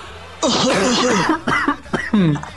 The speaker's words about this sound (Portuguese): Dá um minuto, só que eu preciso tossir aqui.